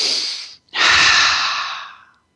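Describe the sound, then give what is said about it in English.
Two airy breaths during a guided meditation, a short one followed by a longer, fuller breath that gradually fades out. “Let's do a few breaths.”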